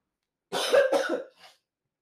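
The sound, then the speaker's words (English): A person coughs in a quick, harsh cluster of a couple of rough bursts, then gives one fainter trailing cough. “And then a cough comes in the middle of this podcast.”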